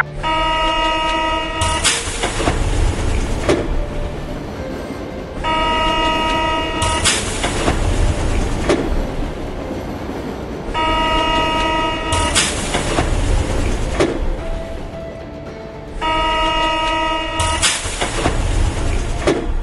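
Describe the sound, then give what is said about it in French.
Trains at Saint-Lazare railway station in Paris, with a horn-like tone sounding four times at regular intervals over continuous rumbling rail noise; no voices. “Je viens d'arriver à la gare Saint-Lazare. Beaucoup de touristes, mais aucune trace de notre fuyard.”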